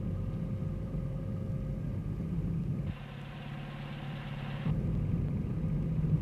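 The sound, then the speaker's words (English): Steady low engine rumble of a car driving along a road behind a van it is about to overtake, with a brief change in tone and loudness midway before the drone resumes. “Now, unless you have any doubts, we'll overtake that van. Keep back a bit or you won't be able to see ahead properly.”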